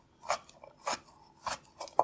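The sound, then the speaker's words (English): Knife chopping dried apricots and apples into smaller pieces: a few crisp, uneven cuts with short pauses between them, heard alone without talk. “So let's chop these up. You don't have to be exact. Let's just get them out of large pieces.”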